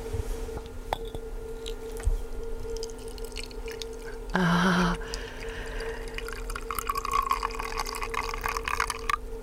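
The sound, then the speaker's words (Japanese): Cooled hot water pours from a ceramic vessel into a teapot holding fresh new-season tea leaves. The splashing pour is brief, under a second, and fairly faint over a steady low hum. “これポットから直接じゃなくて、陶器の入れ物でお湯を冷まして、うん、それを茶葉を入れた急須に入れていただくということですね”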